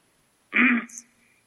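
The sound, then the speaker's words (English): Throat clearing, a single short rough burst of half a second that stands out loud against an otherwise quiet background. “sorry about that, had to clear my throat.”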